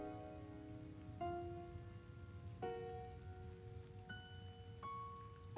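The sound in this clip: Faint, steady hiss of rain falling, with soft held musical tones over it that change pitch every second or so, and no voices.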